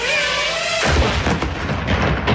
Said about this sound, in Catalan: Aquest és el so del dron rus que s'ha dedicat a perseguir un venedor indefens del mercat de Kherson.